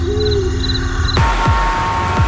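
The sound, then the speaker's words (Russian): An owl hooting at night from thickets beyond a village: low hoots over a steady background hum, with no voices. “с зарослей за поселком временами доносилось уханье совы.”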